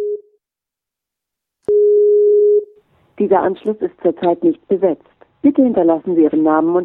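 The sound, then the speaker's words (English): Telephone tone while dialing a number: a short low beep, a pause, then a longer steady low tone, followed by a recorded voice speaking. “His assistant gave me a telephone number, but every time I dialed it, I got this recorded message.”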